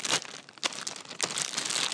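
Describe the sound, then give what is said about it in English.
A plastic sandwich bag being crinkled, with the bag pulled over a hand: loud, dense rustling and crackling in several bursts with brief quieter pauses, no talk. “The sound you're hearing is the child's lunch bag, one of these plastic sandwich bags,”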